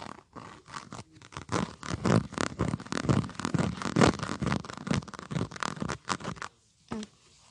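A leathery purse is handled, giving dense scratchy rustles and scrapes in quick uneven bursts that pause briefly near the end before one last rustle.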